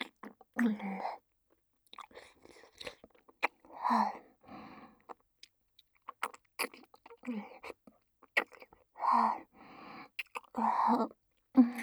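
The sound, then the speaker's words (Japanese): Wet, close mouth sounds of someone eating cold, heavy ice cream: smacking, licking clicks and soft chewing come in short bursts separated by pauses, with quiet whispering between them. “ほら、アイス冷たくて重くて美味しいよ。”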